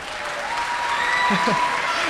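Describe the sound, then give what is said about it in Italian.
Audience applause at an Italian civic ceremony of the Centro Studi Pio La Torre, a loud, dense, sustained clapping from many people with faint voices underneath. “Meritato applauso per l'impegno di tutti questi anni”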